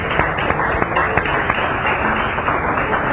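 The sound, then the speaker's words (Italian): Audience applause for a Hindu spiritual teacher after his talk, before kirtan chanting begins: dense, steady clapping from many hands that holds at an even level throughout. “Facciamo un applauso a Sua Santità Srila Bhaktivaibhava Puri Goswami Maharaj”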